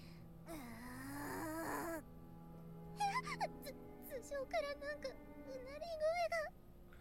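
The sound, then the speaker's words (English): Eerie wailing from somewhere above: a drawn-out, low moaning tone, then a string of higher, wavering cries that rise and dip over several seconds. “Is there something wailing above us? Haha, this is quite scary.”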